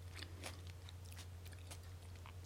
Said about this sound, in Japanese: 美味しいですつくねを食べてます昨日夜つくねを作りました